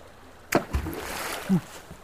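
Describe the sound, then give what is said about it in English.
A thrown rock hits water with one sharp splash, followed by a brief, low slosh of disturbed water. “Got me wet. You liked it. We're almost out of rocks here. End of rock sequence.”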